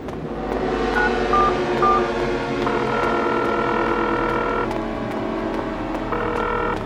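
A telephone is dialed to call emergency services: three short beeps, then longer sustained tones that stop and start again, over a steady low hum.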